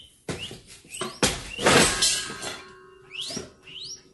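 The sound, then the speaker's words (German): A pet rat squeaks in a cage under a bed, giving several short, high, upward-sliding chirps scattered among thumps, knocks and rustling. “Schallt nicht, o großer Vorsitzender, aus jener Ecke ein gewisses Quieken an mein elektronisch Ohr?”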